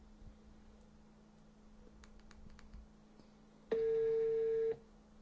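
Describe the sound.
An incoming call rings on a telephone: a single steady electronic tone lasting about a second. Faint scattered clicks, like light typing, come before it against a quiet background.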